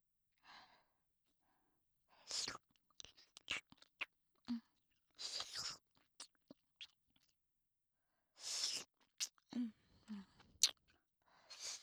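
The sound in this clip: Soft, wet mouth sounds of grape candy being licked right beside the ear, with many short bursts of licking and sucking separated by quiet pauses and light breaths.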